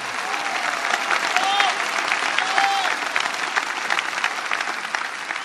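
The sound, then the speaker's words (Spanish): Audience applause at a festival celebrating Our Lady of Luján: dense, sustained clapping from a large crowd holding steady at a loud level for several seconds, with scattered cheers and whistles rising above it. “un aplauso a la Virgen de Luján. Más fuerte, no siento, más fuerte.”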